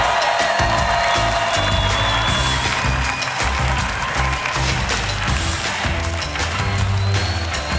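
A comedy show audience claps and cheers loudly to welcome a comedian back on stage, forming a dense, continuous roar of applause that stays steady throughout.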